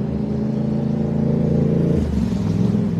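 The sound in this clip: Motorbikes riding back and forth along a street in Cranston at a police scene, a continuous mid-pitched engine drone that swells slightly near the middle and then eases, with light clatter underneath.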